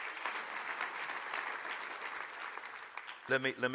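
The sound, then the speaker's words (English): A church audience claps its hands during a sermon. Steady, full clapping holds for about three seconds before a voice begins speaking near the end. “Would you say amen to that and clap your hands?”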